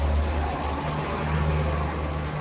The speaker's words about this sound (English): That was a bus.